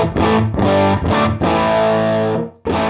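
Distorted electric guitar chords played through an amp with the cut control turned fully up, giving a dark, muddy tone. A few chords are struck hard, one rings out longer before a final chord.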